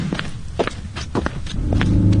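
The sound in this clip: Footsteps walking, a quick run of crisp scuffing steps, joined near the end by a low engine hum that grows louder.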